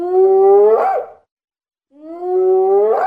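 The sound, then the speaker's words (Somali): Two hyena howls, a sound effect, each a sustained tonal cry that rises in pitch and ends in a brief upward yelp, separated by a moment of silence. “Labada dhinacba waraabaha waa uu ku ciyey”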